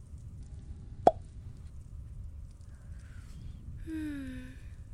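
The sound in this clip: A wine bottle is uncorked with a single sharp, bright pop that stands out against an otherwise quiet, faint background.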